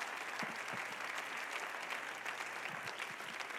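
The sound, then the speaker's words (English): An audience applauding at a church commencement service at the Temple of Pentecost in Raleigh, North Carolina: soft, even, continuous clapping from many hands, steady for over three seconds. “Why don't we put our hands together and welcome to this pulpit our commencement speaker tonight, Brother Ballestero.”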